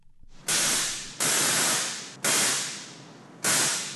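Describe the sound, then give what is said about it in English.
A large caged Tesla coil replica crackles inside a brewery production plant. Four loud bursts of harsh, hissing electrical discharge each start sharply and fade slowly. “That's the sound of a Tesla coil.”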